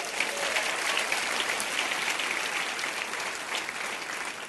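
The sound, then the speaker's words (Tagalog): A church audience applauds the ushers with dense, steady clapping at an even level throughout. “Palakpakan nga natin yung mga usher natin.”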